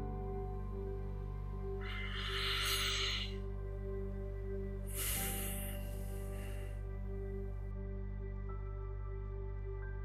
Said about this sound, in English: Just invite relaxation. In fact, let's just take a big, deep breath.